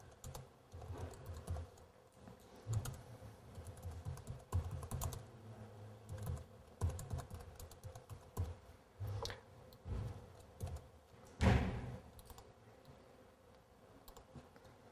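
Computer keyboard keys clatter as someone types code for an ASP.NET class, producing many irregular clicks in quick bursts with short pauses and one sharper, louder click late in the run.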